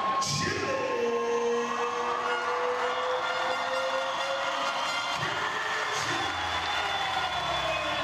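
An arena crowd cheers to welcome a female combat-sports champion into the ring. The roar is broad and steady, with whoops and shouts rising through it.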